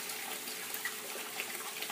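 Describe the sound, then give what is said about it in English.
Water runs as a filter is rinsed under it, making a steady, even, fairly faint hiss of flowing water with no breaks. “So I'm going to start out by rinsing the filter.”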